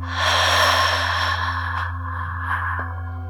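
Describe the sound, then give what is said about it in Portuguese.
A slow exhale during a guided breathing meditation: a soft, breathy hiss that swells and then tapers gradually over a steady low hum. “Quatro, três, dois, um. Segure Três, dois, um e expire.”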